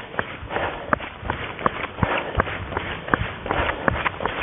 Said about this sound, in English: I am out on an 8-mile run in West Central Florida at around 5 o'clock in the afternoon.